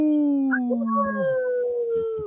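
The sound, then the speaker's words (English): A wolf howl rises out as a long, loud, tonal cry that slides gradually downward in pitch and then holds before cutting off. “We always have to howl here.”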